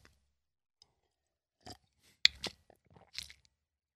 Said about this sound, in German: ich muss kurz was trinken